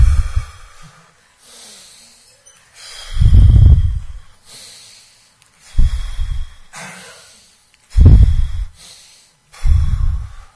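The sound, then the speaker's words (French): Deep breaths in and out through the nose come as a series of loud, rough, snort-like bursts separated by quiet pauses, with a few fainter breaths in between. “Et là, vous inspirez comme ça. Et vous expirez.”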